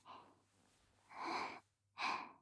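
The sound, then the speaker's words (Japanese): A person's pleasured breathing: three breathy breaths, quiet on their own, with the second and third longer and stronger than the first, and no talk. “息遣い気持ちよさそうですね。”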